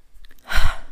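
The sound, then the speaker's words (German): Inhaling through the nose and mouth with hands cupped over them to breathe in essential oil vapour: one soft, breathy rush of air that swells and fades within about a second. “Zeltatmung, Hände über die Nase, über den Mund und einatmen.”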